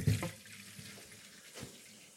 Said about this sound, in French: je rince encore une fois de mon côté.